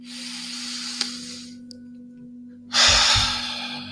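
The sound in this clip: Meditative breathing in and out during a morning meditation: a long, soft airy breath, a pause, then a louder, fuller breath. A steady low hum runs beneath throughout.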